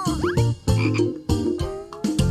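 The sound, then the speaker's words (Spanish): Loud, rhythmic frog croaking in four throaty, buzzing bursts separated by brief pauses, with no voices present. “De una rana.”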